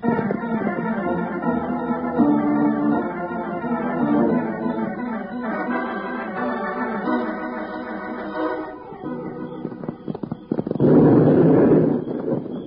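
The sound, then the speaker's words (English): A blast at night, heard as a broad, rumbling burst near the end, following a long passage of orchestral music. “there goes another blast. That makes four.”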